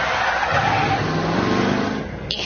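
Car braking and skidding on a dirt road: a loud, rough, continuous scraping rush with a low engine rumble beneath. It lasts about two seconds and eases off at the end.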